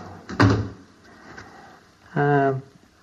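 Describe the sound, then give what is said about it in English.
A specially made fume cupboard being opened: a short clunk near the start, then a quieter stretch, followed by a sustained, steady squeal of the sliding front. “opens a specifically made fume cupboard where he's stored the substance”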